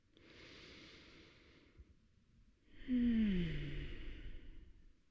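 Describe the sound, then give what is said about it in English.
A deep breath drawn in and let out, two long airy rushes of breath, the second louder and fuller, with a faint falling whistle-like tone inside it. “let's all take a deep breath. Let's do that again.”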